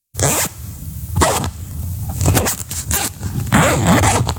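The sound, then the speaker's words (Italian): A zipper being opened or closed: a few raspy zipping strokes at irregular intervals, alone with no talk. “Sono una cerniera.”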